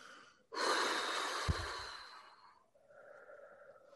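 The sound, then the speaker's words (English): A forceful breath pushed out from the chest, released after tensing during a relaxation exercise. The long, loud, breathy rush lasts about two seconds and gradually fades into a softer, airy breath. “Now when it releases, when that tighter releases, breathe it out from the chest.”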